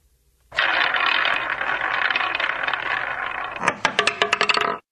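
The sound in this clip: A prize wheel is spun, giving a steady whirring rush and then a rapid run of sharp clicks as the pointer ticks over the pegs before it stops abruptly.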